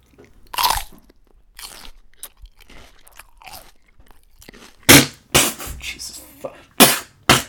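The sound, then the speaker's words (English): Someone bites into a fresh apple at a desk: a sharp first crunch, quieter chewing, then a burst of loud, crisp crunching bites near the end. “I actually have a beautiful little apple here by my desk, and I'm gonna give it a try.”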